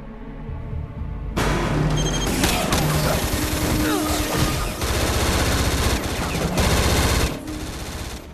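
Automatic gunfire aimed at the ground near someone's feet: dense, rapid, loud bursts of shots rattling almost continuously, with a brief drop in intensity midway before the firing resumes.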